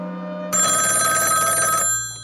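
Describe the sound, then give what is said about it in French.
A telephone bell rings on a private line in one sustained, loud metallic burst of about a second and a quarter, then breaks off, with a faint low hum before it starts. “le téléphone sonne.”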